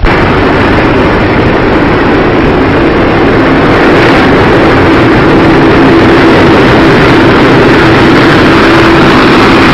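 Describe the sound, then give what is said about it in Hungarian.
Aircraft engine drone during French pilot Détroyat's flight demonstration: a loud, continuous roar with a faint sustained hum running through it, unbroken for about ten seconds. “Détroitját francia pilóta bemutatója.”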